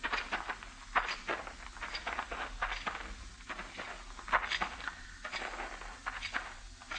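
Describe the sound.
Footsteps of people walking outdoors toward a log, prisoners led at gunpoint in a frontier scene: faint, steady treads repeating many times in an even rhythm, soft and muffled.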